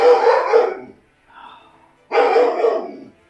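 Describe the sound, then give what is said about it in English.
A dog barks twice: two loud, full barks with a faint, thin yelp in the gap between them. “Stop it! That, ladies and gentlemen, was my step dog. He doesn't like my cat.”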